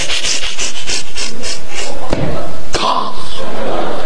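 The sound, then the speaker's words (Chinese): A voice imitates a saw cutting through a leg at the hip during a comic surgery. Rhythmic, raspy back-and-forth strokes are followed by two sharp thumps. “大夫拿出一锯了啊！”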